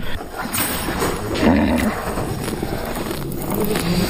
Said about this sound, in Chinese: 清晨，马已经等待开放。 要抓马备马。